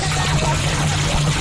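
Water splashes and pours steadily as women water vegetable plots in a market garden in Tambacounda, a loud continuous rushing with no pauses.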